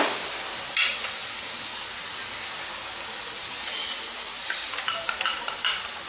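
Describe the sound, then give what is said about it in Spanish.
Food frying in a pan gives a steady, loud, bright sizzling hiss throughout, with a few light clicks of stirring near the end and no talk. “Bueno, esperamos que se frite.”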